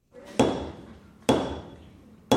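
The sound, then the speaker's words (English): Hammer strikes stamp shapes into pieces of leather during a middle school makerspace class: three sharp, loud blows about a second apart, each followed by a ringing decay, with no voices. “Students use hammers to stamp different shapes into pieces of leather in the last moments of a makerspace class at Thunder Mountain Middle School.”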